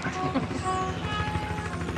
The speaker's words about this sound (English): A helicopter circles overhead.